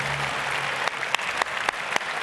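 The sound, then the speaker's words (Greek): Applause at a 2025 sports awards ceremony as a swimming category winner is honoured: a steady bed of clapping from the audience, with a few sharp, louder individual claps standing out in the second half. “Άλλο ένα μεγάλο χειροκρότημα και πάμε σιγά σιγά στην επόμενη κατηγορία.”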